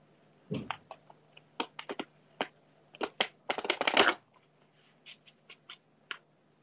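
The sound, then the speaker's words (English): Oracle cards being shuffled and pulled from a deck: many crisp papery snaps and rustles, scattered at first, then a dense flurry of quick riffles, then a few isolated taps. A faint steady low hum runs underneath, and no one speaks. “would like a card, and I'm happy to pull one for you.”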